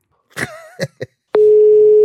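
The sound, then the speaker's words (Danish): A steady telephone ring tone at one pitch on an outgoing live call. It starts abruptly and holds loud and unbroken. Just before it come a few brief, throaty vocal bursts like coughs or throat clearing. “Og vi ringer folk live, Stalin. Ja. Vi ringer live.”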